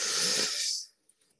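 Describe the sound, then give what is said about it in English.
A deep inhale drawn through the nose during a guided breathing exercise: a single loud, airy rush of breath lasting under a second that fades away, followed by near silence with a couple of tiny clicks. “we're going to begin by taking a deep inhale through your nose, suspending the breath at the crown. Let's take a first inhale.”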